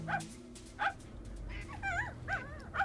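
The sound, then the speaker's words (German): A dog being walked by a woman beside a lake whimpers and yips in several short, high, wavering whines spaced irregularly, fairly faint, with no talk. “Dafür traf ich eine Frau, die ihren Köter spazieren führte.”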